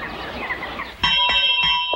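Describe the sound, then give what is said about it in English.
A hand bell rings in a dormitory to wake boys, giving several bright, rapid strokes with a sustained metallic ring after a quieter opening stretch. “The father strides into the dormitory, ringing a bell.”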